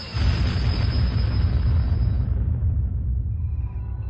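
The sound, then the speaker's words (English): A starfighter explodes under droid fire: a single loud, roaring blast with a deep rumbling body that sustains for a couple of seconds, then gradually thins and fades away. “A V-Wing to starboard caught droid fire and exploded.”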